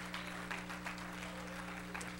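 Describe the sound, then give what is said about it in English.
A church audience claps hands in praise, a steady, fairly faint patter of many hands over a constant low hum. “Let's clap our hands once more and bless his name.”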